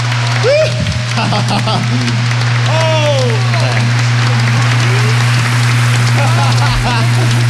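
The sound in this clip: Audience applause after a Village People concert at Sejong Center, a loud crackling wash of clapping with shouts and cheers breaking above it, over a steady low hum.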